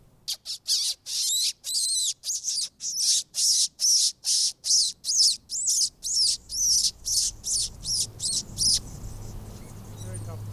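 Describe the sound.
Male Anna's hummingbirds give their mating call, one flying around while singing: many sharp, high chirps in a steady even rhythm, then they stop, leaving a low hum. A person briefly speaks.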